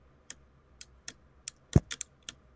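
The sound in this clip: Clacking presses of a broken right shift key on a computer keyboard, whose metal-rod stabilized keys are all broken: about eight sharp, faint clicks at an uneven pace, one landing with a duller thud.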